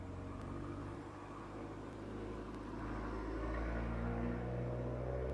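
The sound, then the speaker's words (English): A small Fiat car drives past. Its low engine rumble swells gradually, peaks near the end and stays steady and moderately loud, with no talking. “This nigga's like 65 years old driving this little whack Fiat.”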